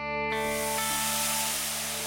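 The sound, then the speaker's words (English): Food sizzles on a backyard barbecue grill. A broad, steady hiss starts abruptly and holds evenly, with sustained humming tones running beneath it. “Today, we're following our nose to the backyard where we fired up the barbecue grill. Time to find out what's cooking in country music.”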